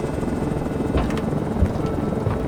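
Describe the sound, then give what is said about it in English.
A rough aircraft takeoff heard as a dense, steady low rumble and roar with faint fluttering hiss above it, continuous for the whole moment and without voices. “And what was with that rough takeoff? That's not like you. Maybe that's because I put it on autopilot.”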